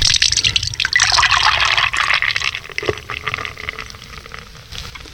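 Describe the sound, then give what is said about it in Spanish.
Water being poured into a glass: a steady, hissing, splashing rush that is loudest at the start and gradually thins and fades over about five seconds. “Le sirvo agua.”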